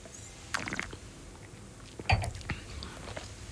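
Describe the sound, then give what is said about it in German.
Soft wet slurping and mouth sounds as Mencía red wine is tasted and air is drawn in with it. A few quiet, short bursts stand out against near silence. “Dann geht's zum schönsten Teil, zum Probieren, also zum Mund.”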